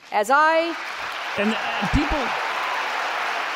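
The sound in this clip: A studio audience cheers and applauds. A shouted voice rings out at the start, then a sustained wash of clapping and crowd noise follows, broken by brief vocal outbursts.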